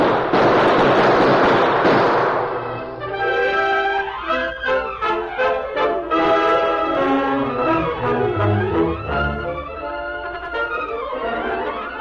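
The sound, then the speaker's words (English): A gunfire sound effect in a radio western shootout: a dense, loud burst of cracking noise lasting about two seconds, cut off as orchestral music takes over. “Use your gun, Tonto. You'll pay back some of that lead with interest.”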